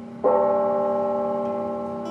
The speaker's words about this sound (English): Late this afternoon, several churches and chapels rang their bells.